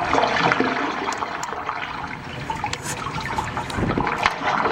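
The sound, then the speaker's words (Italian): Water gurgles and churns through a waterfront sound sculpture on the San Francisco Embarcadero, a dense, steady rush of bubbling and splashing with small bursts rising through it. “Qui io sento dell'acqua che gorgoglia, sì.”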